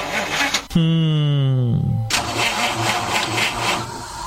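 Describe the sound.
A car engine is cranked: a loud starter whine drops in pitch, then the engine catches and settles into a loud, steady running roar.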